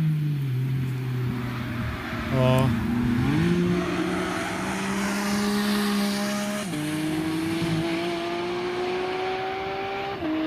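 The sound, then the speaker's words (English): A sports car engine with a manual shifter revs hard and loud, its pitch climbing steadily and dipping briefly at a few gear changes before climbing again. “Is that a manual shifter or is that a PDK? It sounds like a PDK. Sounds like a PDK to me. Sounds a bit too crisp. Have a listen now. Manual shift. He's coming back around.”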